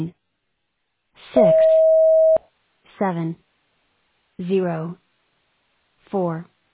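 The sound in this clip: A single steady electronic beep from a voicemail recording prompt sounds for about one second, with a voice speaking over it, followed by three short bursts of speech.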